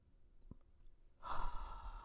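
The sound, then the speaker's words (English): A deep inhale drawn during a guided breathing exercise: near-silence at first, then a steady, breathy rush of air that begins partway through and carries on to the end. “Let's breathe together three times. Inhale hope.”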